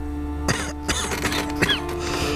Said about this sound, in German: Husten Sie.